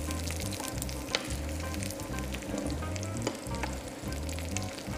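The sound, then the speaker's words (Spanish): Garlic frying in hot oil in a kitchen pan to perfume the oil: a faint, steady crackling sizzle with a few sharper pops scattered through, no talk. “Ahora lo que estamos haciendo es perfumar el aceite para que todo ese aroma del ajo. Esto se hace en muchísimas elaboraciones.”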